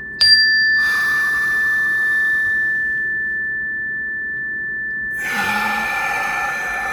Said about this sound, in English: So we're going to inhale in. And just hold for a count and then full exhale out through the mouth.